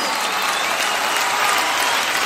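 Applause from a crowd for a dance troupe and its orchestra, a dense, steady wash of clapping held at an even, loud level for the whole stretch.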